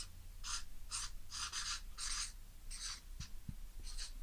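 A pen scratching as the word prosthesis is written by hand: a series of short, dry, scratchy strokes in quick bursts with brief pauses between them.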